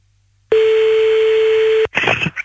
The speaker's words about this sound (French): Ils ont coupé le téléphone.